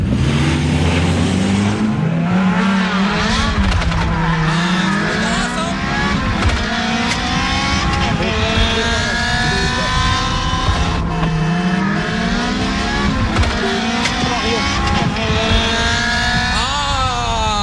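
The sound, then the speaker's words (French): A car engine revs hard, its pitch repeatedly climbing and dropping in long sweeping surges, loud and continuous throughout. “Mais non, mais t'as quoi comme caisse? Attends, je la démarre la mienne.”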